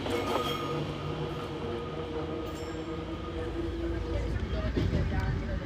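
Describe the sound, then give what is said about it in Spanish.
An old Fiat train runs on the Catania–Paternò railway line, a loud continuous engine drone with steady tonal hum over rumbling wheels throughout. “Al llegar a Paternó, Rosana, con su viejo tren Fiat, obtiene preferencia.”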